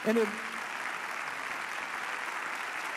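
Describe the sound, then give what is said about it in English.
Applause from a church audience, standing across all campuses to welcome a pastor: a steady wash of many hands clapping that holds evenly for the whole stretch. “let's just stand up and warmly welcome Pastor Jim LaFoon. Come on, let's give it up for him.”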